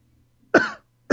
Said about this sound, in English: Excuse me, I choked. I'm choking up.